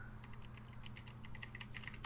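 Rapid typing on a computer keyboard during a web search: many quick, crisp keystroke clicks in an uneven rhythm over a steady low hum.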